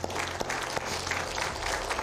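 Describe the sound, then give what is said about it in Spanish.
A church audience applauding, a dense, steady roar of many hands clapping that fills the whole two seconds, with no voices heard over it. “Denle un aplauso fuerte al Señor.”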